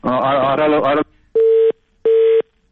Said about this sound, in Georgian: ხოდ გაითიშა. დიდი მადლობა ზარისთვის.